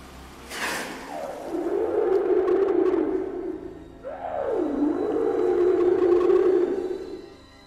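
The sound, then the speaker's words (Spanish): Real recordings of humpback whales singing: two long, low moaning calls, each sweeping downward and then holding a steady, droning tone. The second call opens with a brief upward swoop before it falls. “Son grabaciones reales de ballenas jorobadas.”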